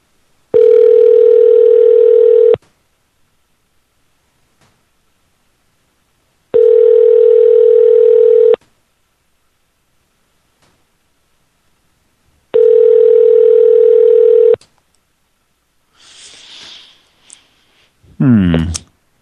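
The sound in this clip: Telephone ringing tone on a call: three long, steady, evenly spaced tones separated by silent gaps, followed by a few brief clicks and noises at the end.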